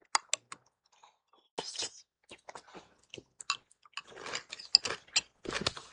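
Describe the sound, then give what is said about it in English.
Quiet biting and chewing of chili with crunchy corn chips: a few sharp, isolated clicks, then irregular bursts of crisp crunching and softer mouth sounds, with no talking. “Go on, take a bite.”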